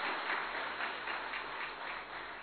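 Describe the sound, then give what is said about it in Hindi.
An audience applauds in a dense, steady wash of clapping that holds at an even level for the whole stretch, with no voices on top. “जरा जोर से तालियां तो बजाओ”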